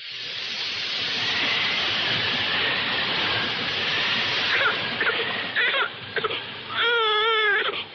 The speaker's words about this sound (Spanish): ¿Qué le pasa a la niña? Está bien. Ahora dejará de llorar.